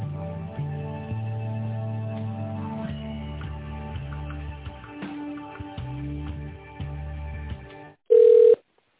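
A telephone call is transferred inside an office. Hold music plays at an even level over the line, then a short silence, then a single short, loud ringing tone.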